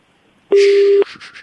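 A telephone busy tone sounds after a caller hangs up: one loud, steady mid-pitched beep lasting about half a second, followed by faint, softer noise.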